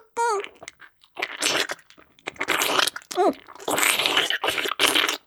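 Chewing of a sticky food that clings inside the mouth: loud, wet, crunchy mastication noises in uneven bursts, with a couple of short voiced hums between them.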